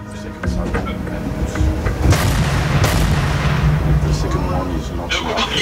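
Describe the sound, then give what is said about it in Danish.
A large naval gun on a frigate fires a shell during a firing exercise off North Zealand: deep booming blasts burst out over a continuous loud rumble, with the sharpest bangs near the middle. “Og man står jo der og ved, lige om lidt, så skal den der store granat flyve afsted, og man ved ikke, hvornår det sker.”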